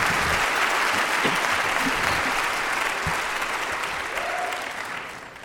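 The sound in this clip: An audience gives a warm, sustained round of applause welcoming Senator Gaylord Nelson, with dense, continuous clapping that tapers slightly toward the end.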